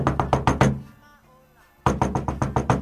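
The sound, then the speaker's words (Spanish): Knuckles rap on the door of a man's house at night: a quick burst of five loud, hollow knocks, a short pause, then another rapid run of several knocks in the same steady rhythm. “Así que a la noche fue hasta la casa del señor que le había comprado el reloj y empezó a golpear.”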